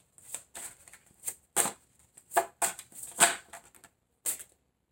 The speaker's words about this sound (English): May I have three cards, please, for Gemini?